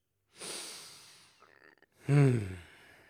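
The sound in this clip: A deep breath: a soft airy inhale, a brief pause, then a louder voiced, sighing exhale like a relieved whew.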